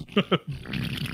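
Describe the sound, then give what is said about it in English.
A fart sounds as two short, buzzy bursts in quick succession, fairly faint, followed by a low rustling murmur. “how'd you fart again?”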